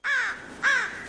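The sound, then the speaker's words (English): An American crow gives two harsh, nasal caws separated by a short pause, each call loud and clear and dropping slightly in pitch, with no other sounds around them. “That's the call of the American crow.”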